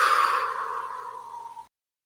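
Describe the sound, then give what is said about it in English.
A deep breath through the nose let out as one long, airy sigh of about a second and a half that tapers off into silence. “Take another deep breath through your nose and let it all out.”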